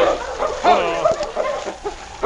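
Whining of King, a Mountie's tracking dog that has lost a scent trail at a busy mining settlement, heard as a few short, broken, high-pitched whimpers.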